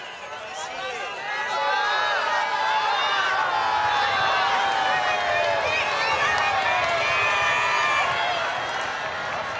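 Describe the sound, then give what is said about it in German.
Crowd of the faithful on St. Peter's Square during the papal general audience, a dense wash of chatter, cheers and scattered clapping that builds over the first two seconds and then holds steady and loud. “Vielen Dank jetzt schon an die Kollegen von Radio Vatikan, die uns das Ton, diesen Ton vom Petersplatz zur Verfügung stellen”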